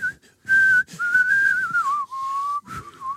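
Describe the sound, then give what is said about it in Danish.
A person whistles alone in a clear, steady tone. One held note leads into a wavering passage that slides downward, then a lower sustained tone follows, with short gaps between phrases and a brief final note. “Vi fløjter til hinanden”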